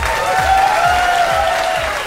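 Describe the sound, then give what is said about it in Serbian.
Loud applause from an audience at a science and technology museum event, dense continuous clapping that holds steady through the whole stretch. “Aplauz molim.”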